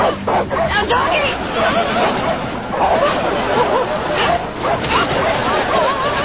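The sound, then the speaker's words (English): Dogs bark and yip in a kitchen, short sharp barks mixed with higher whining yelps, while a background babble of several people talking runs underneath throughout. “Did you hear the dogs? Yeah, they're in the kitchen.”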